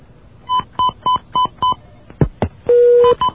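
Telephone touch-tone dialing while a caller is patched into a call: a quick run of evenly spaced beeps, then a couple of clicks and a longer held tone, heard alone without voices.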